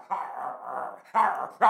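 A dog barks and whines in a few loud, drawn-out vocal bursts, the first long and sustained, followed by two shorter ones.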